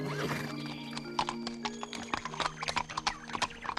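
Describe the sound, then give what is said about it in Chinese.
Horse hooves clip-clop as a horse pulls a cart along a road toward the woods, with many quick, irregular hoof strikes and a whinny near the start. “他指挥着马儿拉着车向前走。”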